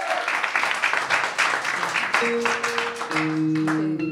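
An audience applauds to welcome a performer on stage with steady, dense clapping. Sustained musical tones come in partway through while the clapping continues.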